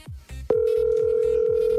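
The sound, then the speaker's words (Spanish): A telephone tone sounds as a phone call is redialed. A few dull thumps come first, then a single steady, unbroken tone holds at an even level until the end. “Deja marcarlo otra vez.”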